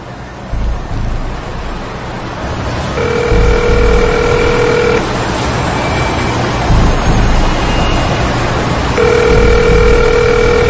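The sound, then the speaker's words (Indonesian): Mobile phone ringing tone while calling someone: two steady two-second beeps about six seconds apart, faint beneath a loud, continuous rushing noise. “Merasa tak enak, ku ambil handphoneku dan menelponnya.”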